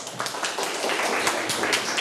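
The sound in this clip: Classmates clap for a student in a classroom: a few people give brief, irregular claps, with individual hand strikes audible.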